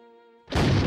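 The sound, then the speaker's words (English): A ceremonial gun salute fires by Tower Bridge. A single sudden, loud, broad boom breaks in halfway through, cutting over a quieter held tone and roaring on to the end. “Gun salute by Tower Bridge, then mounted soldiers in gold-braided uniforms.”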